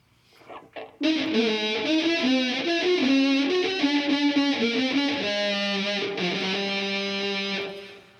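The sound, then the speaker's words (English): A horn plugged into a heavily distorted effects setup plays a buzzing, gritty melodic line of sustained notes. A few soft sounds come first, then the loud, saturated tone holds steady before fading at the end. “So when I started plugging my horn in and making different sounds, what I found right away is, oh, this makes me play something different. So when I had that very distorted sound,”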